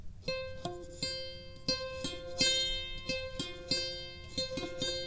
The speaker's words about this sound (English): And then we put the neck on the box, and I'm holding the microphone the same distance away, and I'm trying to do the same velocity of plucking, and it sounds like this.